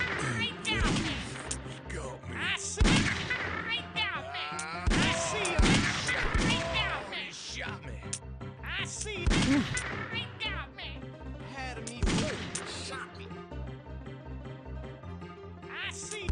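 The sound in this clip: Video game gunshots crack out as a few sharp, loud bangs over a steady game soundtrack, with a man talking throughout.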